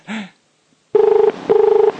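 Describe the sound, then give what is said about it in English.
Ringing tone of an outgoing telephone call as it connects: two steady, loud tone bursts, each a little under half a second long, separated by a short gap. “Let's get him on the phone.”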